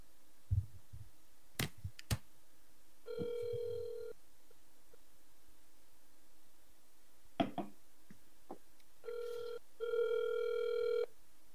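An unanswered phone call gives two faint ringback tones separated by a long pause, each a steady buzzing ring. Scattered clicks and soft thumps sound between them.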